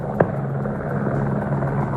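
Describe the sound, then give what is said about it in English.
Helicopter flying overhead during an aerial feral deer cull over farm property in Western Australia: a steady low rotor drone with a faint rhythmic thumping, continuous throughout and heard alone. “Having choppers flying around over your property, shooting multiple rounds in quick succession, it ends up being quite disturbing.”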